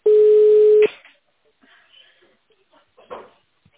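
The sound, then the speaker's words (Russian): A telephone line tone as a call connects: one loud, steady mid-pitched beep lasting under a second, then faint rustling and a short soft noise near the end. “Соединение установлено. Пожалуйста, подождите.”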